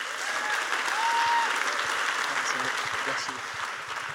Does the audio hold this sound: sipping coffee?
no